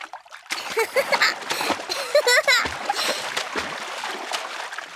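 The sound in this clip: Water splashing in a paddling pool on a hot summer day, a loud, busy run of splashes and spatters lasting throughout, with voices mixed in.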